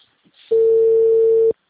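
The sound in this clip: A single telephone ringing tone plays alone, a steady, pure, mid-pitched beep lasting about one second after a brief faint noise.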